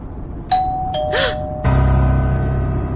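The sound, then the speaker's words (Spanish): A doorbell rings loudly with a few clear electronic chime tones in succession, the last one sustained over a low background hum. “Estaba demasiado distraída cuando sonó el timbre, pero no hay duda de que ha sonado.”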